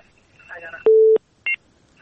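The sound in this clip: Telephone tones as a caller is connected on a call-in program: a brief voice, then a steady low tone lasting about a third of a second, and a short, higher two-tone beep.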